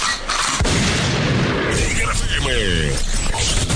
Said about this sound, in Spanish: arma de grueso calibre.